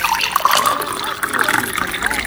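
Water is poured into a drinking glass for someone about to take medicine, a steady, splashy, rushing flow that keeps going through the whole short stretch.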